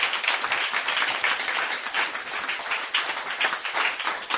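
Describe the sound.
A church audience applauds with dense, steady clapping that continues evenly throughout, with no voices standing out.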